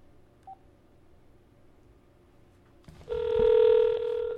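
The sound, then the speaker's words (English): Telephone tones as a call is placed to a guest: a brief soft beep, then after a pause a loud, steady, sustained tone lasting over a second, with no talking. “We're going to get Kerry on the phone.”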